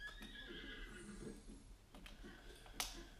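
Horse whinnying in a video game: a faint, high, shaky neigh near the start, followed by soft rhythmic hoof clops and a sharp click near the end.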